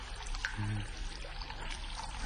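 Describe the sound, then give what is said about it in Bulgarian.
Water trickling from a small spring, a faint, continuous splashing and gurgling flow that stays fairly even throughout, with no talk. “Ето и изворчето. А водата е много хубава, аз вече пих от нея.”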